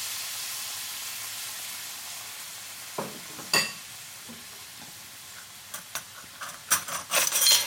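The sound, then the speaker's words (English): Cider stirred into a pan of softened ingredients gives a faint, steady sizzling hiss, with a few scattered scrapes and clicks from the spoon that grow more frequent toward the end. “Now what I'm going to do, I'm going to add the cider. Stir that in.”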